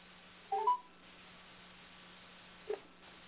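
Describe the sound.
Telephone dialing tones: two short electronic tone bursts, a brief cluster of beeps early on and a single beep later, faint over a low steady hum with quiet gaps between them.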